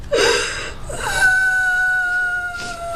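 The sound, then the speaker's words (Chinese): A child crying and sobbing, with breathy, gasping sobs followed by a long, steady, high-pitched wail that holds to the end. “不哭了啊”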